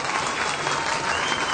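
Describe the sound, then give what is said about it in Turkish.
Applause fills a wedding hall during a marriage ceremony as a crowd claps steadily, a dense, even wash of many hands that stays loud throughout. “Alkışlıyoruz.”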